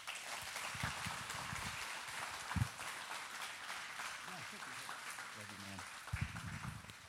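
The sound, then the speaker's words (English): Church audience applauding to welcome a guest speaker and his family, a steady wash of clapping that runs throughout, with voices heard over it. “So let's give him a warm welcome.”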